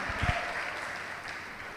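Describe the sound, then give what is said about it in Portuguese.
A church audience applauding in praise of Jesus while rising to its feet: faint, even clapping that holds steady for the whole short stretch. “Vamos aplaudir a Jesus, e fique de pé no seu lugar.”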